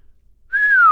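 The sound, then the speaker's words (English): A person whistles one clear, sustained note that begins halfway through after near silence and slowly drifts lower in pitch until it is cut off by a click. “Said the jinn, whistling.”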